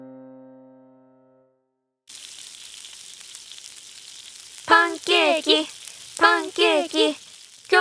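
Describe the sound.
Pancakes frying in a pan give a steady, hissing sizzle that starts suddenly and continues throughout, with voices talking loudly over it in the second half.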